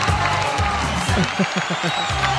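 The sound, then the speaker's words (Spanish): Audience applause with some cheering as a contestant wins the eleventh prize in a giveaway: a dense, steady patter of many hands clapping at an even, fairly loud level, with voices talking over it throughout. “Bueno, pará, dejen de aplaudir”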